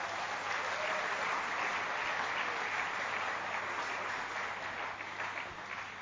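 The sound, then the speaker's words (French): Dense, steady applause from a crowd at a church gathering, a continuous even roar of many clapping hands that holds for about six seconds and thins slightly at the very end. “Ne vaut-il pas la peine de l'acclamer?”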